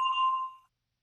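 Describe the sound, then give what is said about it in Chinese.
A single bell chime, played as a cue before an answer: one clear, bright ding that rings alone for about half a second and quickly fades to silence. “Max 提出问题以后，请大家先听铃声，然后回答他的问题。”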